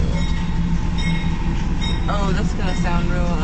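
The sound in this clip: A train rolls past, heard from a car at a coffee shop drive-through: a loud, steady rumble with faint high metallic squeals through the whole clip.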